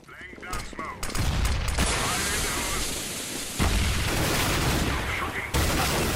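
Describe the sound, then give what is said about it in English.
Gunfire from a video game gunfight between soldiers and terrorists on Middle Eastern streets: loud, dense bursts of shots and booming blasts that run almost without pause and swell suddenly partway through. “A gunfight on the streets of the Middle East. The good guys versus the terrorists. Loud, brutal, and bloody. But of course it's just a video game.”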